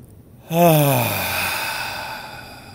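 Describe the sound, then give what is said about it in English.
A deep breath let out as a loud voiced sigh that starts abruptly after a short silence, then trails into a long, steadily fading breathy exhale, alone with no talk. “Take a moment and just breathe into that. Looking in your own eyes. And just take a moment and take a deep breath.”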